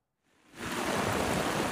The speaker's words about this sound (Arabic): الأمطار ما عم تهدأ باللاذقية، ونحن هون بسوق السمك عم نعاني من قصة الصرف المطري.